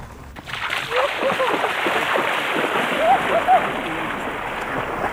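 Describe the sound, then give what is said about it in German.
Water splashes and sloshes steadily as someone swims in the Danube off a sand-and-gravel beach in a national park on a hot day. It is a continuous broad wash of water noise. “ich gehe jetzt noch schnell in der Donau schwimmen.”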